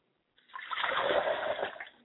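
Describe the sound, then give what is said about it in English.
Liquid poured out as a ritual libation offering, a steady splashing stream that runs for about a second and a half before tapering off, with no voices. “We pour libations to Oladulamare in the honor of Akamare.”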